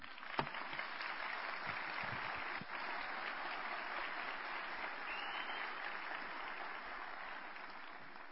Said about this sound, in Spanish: recibámoslo con un fuerte aplauso a Camilo Restrepo Guzmán